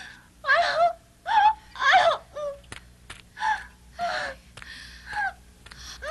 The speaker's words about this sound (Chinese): 哎呀，他叫那么惨，我听着难受嘛。